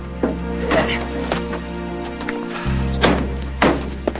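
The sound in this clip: Pickup truck doors are forced open with effort, giving a few dull thumps and clunks spread across the moment over a steady musical background.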